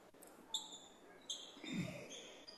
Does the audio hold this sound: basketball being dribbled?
yes